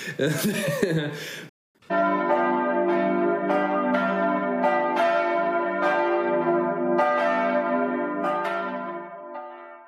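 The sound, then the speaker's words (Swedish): Church bells ring with many overlapping, resonant strikes that carry on loudly and evenly for several seconds, after a brief noisy burst at the start. “klockorna har ringt in till detta tionde avsnitt av den tredje säsongen av Lillhällsmål.”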